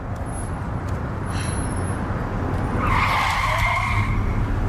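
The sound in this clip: A car skids with a loud tire screech. A harsh, sustained squeal with noisy road rumble swells and grows louder in the second half, with no talking.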